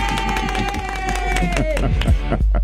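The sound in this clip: An audience cheers and claps after being urged to make noise for anyone rooting against Argentina at the World Cup. Dense, loud crowd noise carries rapid clapping and many shouting voices throughout, without a break.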